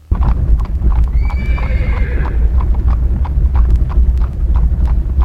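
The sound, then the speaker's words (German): Hooves clip-clop at a slow, steady pace as a heavy eight-seat horse-drawn carriage travels along a river, over a continuous low rumble, with a horse whinnying early on. “Die schwere, achtsitzige Kutsche fährt nur langsam den Jurafluss Doubs entlang in Richtung Besançon.”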